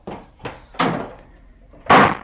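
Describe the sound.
A door slammed shut during a heated family argument: a few dull knocking thuds, the last one the loudest and sharpest, with no voices.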